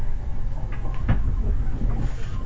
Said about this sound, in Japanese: 9番線から黒磯行きが発車をいたします